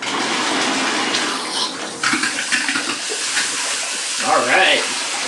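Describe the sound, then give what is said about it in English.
Water from a removable handheld shower head sprays warm into a bathtub, a steady splashing hiss that shifts slightly as the stream moves, with a brief voice near the end. “I'm taking the removable nozzle head here, and I am going to turn it on.”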